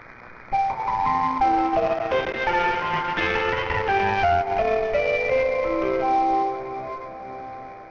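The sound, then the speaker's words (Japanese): Electronic departure melody at a Japanese train station, based on an American folk song: a bright, chiming tune of clear sustained notes plays steadily for about six seconds, then fades out. “森の宮駅の発車メロディーはアメリカ民謡の森の熊さん。駅名にある森にちなみ名付けられました。”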